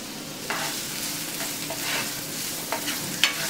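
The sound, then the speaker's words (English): Chopped onions and minced garlic frying in oil in a frying pan give a steady, bright sizzling hiss, broken by a few light stirring scrapes and ticks, with no talk. “Chop two medium onions or one large one and add it to the pan. Also add a couple of cloves of minced garlic.”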